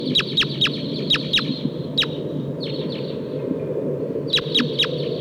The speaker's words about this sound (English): I hear wild crossbills here. It sounds like a Sitkensis type.